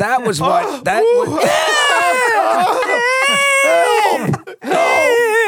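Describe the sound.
A person imitates a crying infant with a string of wavering, high, whining wails that rise and fall in pitch, broken by brief pauses.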